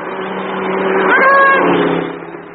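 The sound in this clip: A car drives past on a road. Its engine noise swells to a loud peak, with a brief whine in the middle, then fades away.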